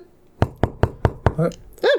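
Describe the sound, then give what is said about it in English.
Five sharp, evenly spaced knocks on a door ring out in quick succession, followed by a brief burst of voice. “I'll be right back. There's someone at the door.”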